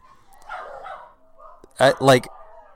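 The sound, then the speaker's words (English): Two sharp barks from local dogs burst out in quick succession after a stretch of faint, murmuring voices. “So our special guests for this evening are Trace's local dogs.”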